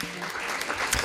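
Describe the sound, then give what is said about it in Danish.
Recorded applause played as a studio sound effect: a short, dense burst of clapping from many hands that stays fairly faint and steady throughout. “Har vi noget klapsalve liggende”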